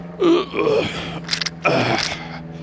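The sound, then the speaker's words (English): A man takes a few deep, heavy breaths while squatting over a trash pile, partly voiced like low groans, with a short breathy hiss between the longer exhales. “Takes a few deep breaths.”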